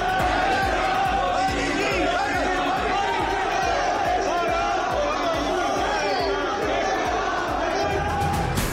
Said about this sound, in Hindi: Italy के hotel में लगे मोदी मोदी के नारे, प्रधानमंत्री मोदी की एक झलक पाने को उमड़े भारतीय समुदाय के लोग।